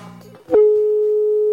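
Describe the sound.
A single steady ringback tone on a telephone line as the call rings through, a plain mid-pitched electronic hum lasting about one second after a brief voice, then cutting off abruptly.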